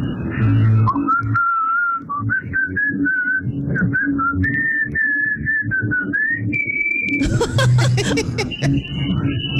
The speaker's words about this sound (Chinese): 来口哨， 吹的口哨， 哇，准。